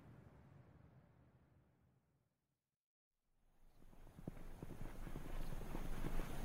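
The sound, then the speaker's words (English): A horse being ridden out toward the foothills clip-clops with many quick, steady hoofbeats. The hooves start after a brief silence and grow louder over a broad, rushing background noise. “The next day, Hassan rode out to the foothills and searched until he found the tree.”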